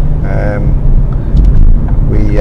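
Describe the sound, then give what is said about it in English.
Engine and road rumble from a Ford Focus automatic being driven in the UK: a steady low drone that stays even throughout, with a faint voice-like tone briefly above it. “I'm currently driving a Ford Focus automatic here in the UK.”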